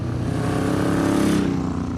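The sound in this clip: A custom, very long motorcycle's engine rumbles steadily and loudly, a deep continuous drone with no pauses across the whole stretch.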